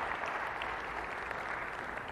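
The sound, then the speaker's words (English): An audience applauds during a church service, a steady patter of many hands clapping at moderate volume for about two seconds. “Let's have a hand for the one we worship and the ones who lead us in worship.”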